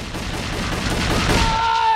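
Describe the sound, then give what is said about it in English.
Rapid gunfire in a dramatic action scene: a loud, dense, continuous roar of shots lasting about two seconds, with no separate reports standing out. “Dorian strains and sucks the bullets up into his mouth, then fires them back at Nico from his mouth.”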